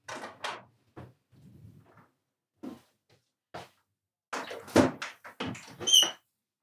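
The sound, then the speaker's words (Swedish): A window being closed brings a scattered series of creaks, squeaks and soft knocks separated by quiet gaps, denser and louder toward the end. “För fönstret är faktiskt öppet, vilket jag glömde stänga. Jag ska gå och göra det nu för att hålla det värsta Almedalsgapandet utanför.”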